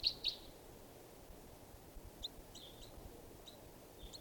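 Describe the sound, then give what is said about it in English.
A juvenile bird from a flock gives short, high-pitched chirps. Two clearer chirps come at the start, then several fainter ones over a steady background hiss. “this is one of the birds. It's a juvenile.”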